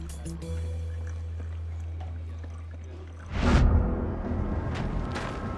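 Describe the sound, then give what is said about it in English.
Sumatra coffee pouring into a thermos, a steady rushing liquid sound that starts partway through after a low, even hum. “Get that Sumatra in the thermos. I'm on it.”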